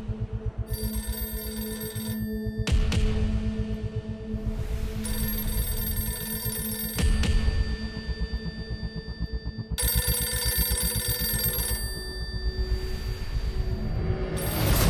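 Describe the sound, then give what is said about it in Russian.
An old-style telephone rings in an old apartment: several long, bright electric rings separated by short pauses, loud and alone, with no one speaking. “Он звонит по мобильному, в старой квартире звонит телефон.”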